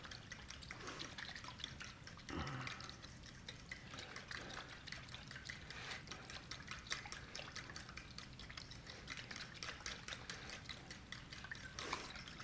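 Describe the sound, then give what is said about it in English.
A spoon stirs a mixture with salt and oil in a bowl, making faint, continuous wet swishing and scraping with small clicks throughout. “so now we're going to stir all that good stuff up”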